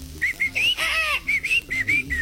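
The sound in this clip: Southern screamer calling: a quick series of short, high, whistle-like notes, some clipped and some slightly drawn out, repeating in an uneven rhythm without voices.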